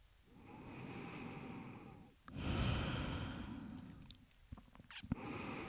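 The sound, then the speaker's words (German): Slow, quiet breathing in and out during a guided meditation: a soft, drawn-out breath followed by a fuller, louder one, with faint mouth clicks near the end. “Atme ein, atme aus.”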